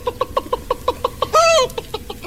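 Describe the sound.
A hen squawking as a bulldog attacks her: a rapid run of sharp clucks breaks into one longer, loud, harsh squawk, then the clucking resumes.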